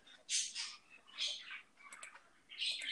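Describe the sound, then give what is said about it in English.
Pet birds chirping: a few short bursts of high, bright chirps and tweets, faint and scattered across the moment with small gaps between them. “Feed your damn birds. You're like cutting in and out. I do feed my birds. They're just being a bunch of fatties.”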